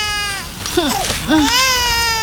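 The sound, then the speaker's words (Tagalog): A hungry baby cries early in the morning: two short, rising-and-falling wails over a steady, tonal background hum. “umiiyak na yung bunso ko. Gutom na yata yung baby bunso ko.”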